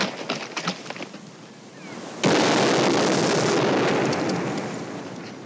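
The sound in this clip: Gunfire from a western film scene as a new gun is tried out: a few quieter pops, then a sudden loud blast whose noisy rumble lingers for several seconds and slowly fades.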